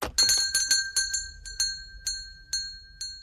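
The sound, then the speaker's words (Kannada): A bright, high-pitched bell rung repeatedly, its strikes coming quickly at first and then spacing out, each ring decaying before the next. The ringing is fairly quiet, with no voices. “ಯಾರೋ bell ಬರ್ಸ್ಲಿಕ್ಕತ್ತಾರಲ್ಲ,”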